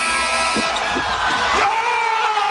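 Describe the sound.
An arena crowd roars at Scotiabank Arena as Kawhi Leonard, guarded by Simmons, hits a game-winning shot for the Raptors, a loud, dense, sustained roar that stays steady throughout.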